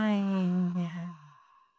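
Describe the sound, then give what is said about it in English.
A deep breath let out slowly, voiced like a soft, humming sigh. It starts fairly strong and fades gradually over under two seconds until it trails off. “take a deep breath in and hold it for 5 or 4 and let it out.”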